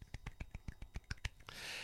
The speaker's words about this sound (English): I'm just slapping my leg, see?